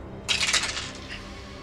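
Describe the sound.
Damage dice rolled during a tabletop role-playing game, a brief bright clatter that rattles for about half a second and quickly dies away.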